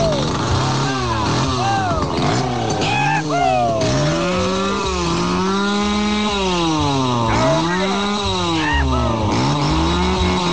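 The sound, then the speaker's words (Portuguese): A chainsaw started up in a radio studio revs loud and continuously, its engine pitch swinging up and down through repeated throttle bursts, with voices talking over it. “Ô, cowboy, liga a motosserra pra nós aí, pra acordar os vizinhos por cá.”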